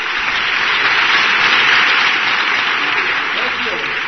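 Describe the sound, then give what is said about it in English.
Sustained applause from a standing audience welcoming a presidential candidate to the stage, a thick, unbroken wash of clapping at steady loudness throughout. “Please hold your applause to the very end.”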